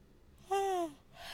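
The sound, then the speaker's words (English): A single voiced yawn: a short, fairly loud tonal breath that holds a steady pitch, then falls as it fades, followed by a soft exhale. “I don't know why I just started yawning out of nowhere”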